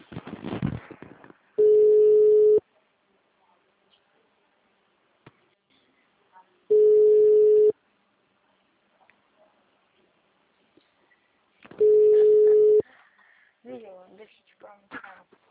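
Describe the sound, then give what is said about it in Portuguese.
A telephone ringing tone sounds on an outgoing call, three steady one-second tones spaced about five seconds apart, with near silence between them and people talking at the start and end. “Calling.”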